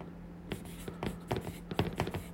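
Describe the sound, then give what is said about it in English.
Pen writing, faint scratchy strokes coming in a few quick, irregular bursts over a low steady hum. “I'm going to write unbiased.”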